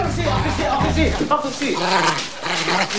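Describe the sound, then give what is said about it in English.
A dog barks and growls while attacking a man's coat in a sudden scuffle. Its snarls and yips are mixed into a dense, busy layer of other sound that stays loud across the whole stretch. “Tony lets the animal go, and it immediately starts attacking Sol's coat.”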